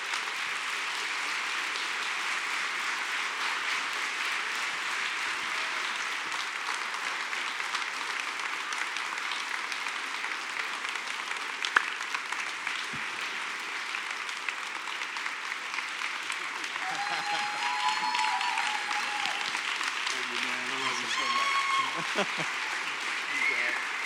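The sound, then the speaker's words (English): Sustained applause from an audience welcoming two pastors onto a stage, a steady, dense wash of clapping that carries on evenly throughout without a break. “would you stand to your feet, put your hands together, and welcome Pastor Don Doe and Pastor Robin Wood”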